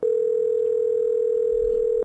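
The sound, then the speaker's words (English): A telephone dial tone sounds while a call is being dialed: one loud, steady, unbroken tone that lasts about two seconds and then cuts off abruptly. “please hold while we dial up. Pretty loud. Oops, that's even louder.”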